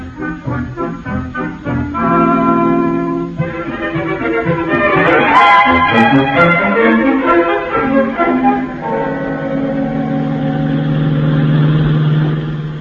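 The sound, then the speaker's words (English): A taxi cab drives along, its engine humming loudly and continuously for the whole stretch, with the revs swelling and easing a little. “We'll take a cab, and I'll give you the information as we drive along.”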